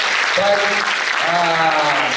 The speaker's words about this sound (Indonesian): Tepuk tangan buat dia.